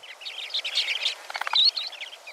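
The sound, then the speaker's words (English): A western sandpiper calls in a series of high, thin chirps, with a quick buzzy trill midway, alone against a silent background. “And then, there's the female western sandpiper.”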